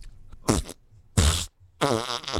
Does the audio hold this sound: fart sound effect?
yes